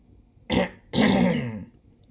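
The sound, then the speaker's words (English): A woman clears her throat in two rough bursts, a short one followed by a longer, louder one, with no talk around them. “First Lady cleared her throat.”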